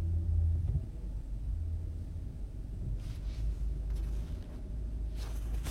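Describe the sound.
Steady engine and road rumble from a car on the drive home, a dense low drone that holds evenly throughout with no talk over it.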